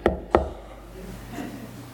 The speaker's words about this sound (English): And the idea is of you keep knocking. Like that guy, come on, man, give me the bread.